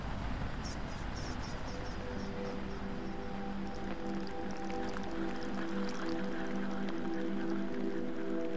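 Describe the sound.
Steady rain falls as a dense, continuous hiss with scattered drips, holding an even level throughout, while a low sustained hum runs underneath.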